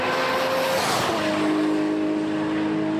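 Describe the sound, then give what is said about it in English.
Engine roar of Smokey Nagata's tuned car at full throttle, accelerating toward 200 miles per hour: a loud, sustained, steady drone with a brief break in tone near the middle. “The vehicle approaches 200 miles per hour very quickly in 21 seconds.”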